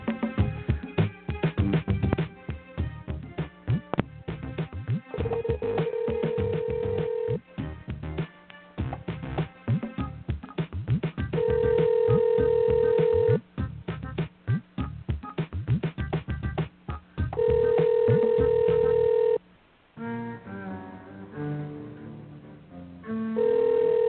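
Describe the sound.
A telephone line rings while a number is called. The ring tone comes back at steady intervals, about four times, over a dense, busy background that keeps going throughout.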